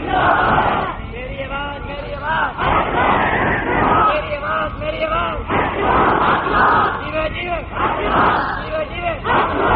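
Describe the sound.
A large crowd chants religious slogans in unison in response to a leader's calls at a religious gathering, loud shouted phrases repeated in rhythmic bursts with a somewhat muffled, band-limited tone.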